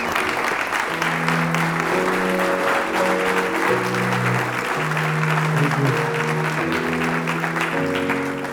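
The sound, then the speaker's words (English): An audience at a church mission event at a university applauds to welcome a speaker. Steady, sustained clapping runs throughout, with held musical notes sounding alongside the applause. “Shall we put our hands together as we welcome Dr. Gaud to teach?”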